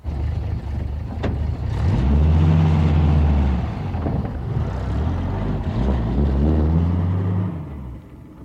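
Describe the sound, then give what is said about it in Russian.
A truck engine rumbles and revs as the vehicle drives off on a road by a lake, its pitch swelling and easing a few times before the sound fades out near the end. “проводил грузовик тоскливым взглядом”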